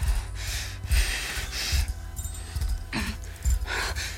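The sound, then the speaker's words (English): Deep inhales drawn during a paced breathing exercise, heard as a few airy, breathy rushes of air separated by short pauses over a low, steady rumble. “Inhale. Inhale on the count of five.”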